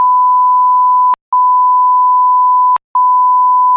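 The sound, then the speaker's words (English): A censor bleep sounds as a steady, loud, pure mid-pitched tone that runs almost the whole time, cut by two brief silent gaps, each marked by a click. “I'm probably beeping this out. Nah. Don't bleep this out.”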